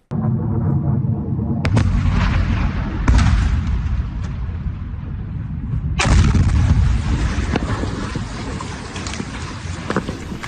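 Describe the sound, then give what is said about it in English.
Missile strike explosions at a Jordanian airbase overnight: loud, deep booming rumbles with a few sharp blasts breaking through continuous roaring noise. “This is video of a deadly missile strike on a Jordanian airbase overnight Friday into Saturday.”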